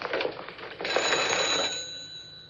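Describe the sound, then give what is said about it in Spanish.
A telephone sounds as a call is placed in a 1964 musical film, giving a bright, steady ringing tone over a rough hiss that lasts about two seconds before fading. “Va al teléfono.”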